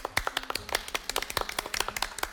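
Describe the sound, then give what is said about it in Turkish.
Quiz show contestants applauding together: many sharp, crisp hand claps in quick, slightly uneven succession, fairly loud and with no talk over them. “Aynı zamanda yarışmacılarımızla birlikte bir alkışlar mıyız Mete Gazoz'u?”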